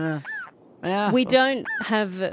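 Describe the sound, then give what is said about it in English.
A hooded plover calling: squawky, honking notes with bending, rising and falling pitch, delivered in quick loud bursts after a brief pause. “Is that the hooded plover? Ooh. What is that? Oh, some sort of bird in the background. It is a hooded plover, yes.”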